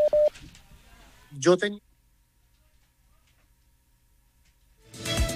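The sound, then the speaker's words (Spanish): Telephone dialing tones sound as someone redials to restore a dropped call: brief electronic tones and a short burst of stacked tones, then a quiet line, then louder noise at the end. “Se ha caído otra llamada con don Jorge Barón Jr. Estamos restableciendo el contacto.”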